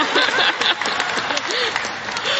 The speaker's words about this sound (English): And she gets applause.